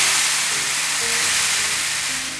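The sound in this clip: Azuki beans shaken in a bowl to imitate sea waves give a steady, loud, rushing hiss that swells and recedes only slightly, like surf washing over sand.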